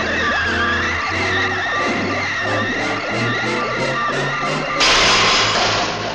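A cartoon car brakes hard and skids in a dubbed animated short, making sustained, shrill, squealing tones over a rumbling bed that end in a sudden loud burst of hissing noise.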